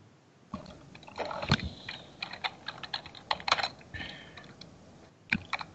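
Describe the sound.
Fast typing on a computer keyboard: many uneven, quiet clicks in dense bursts, then a brief lull and a few final keystrokes, with no talking.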